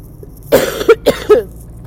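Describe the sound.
Coughs from a tickle in the throat: a few sharp, dry bursts in quick succession, loud against a quiet background with no talk.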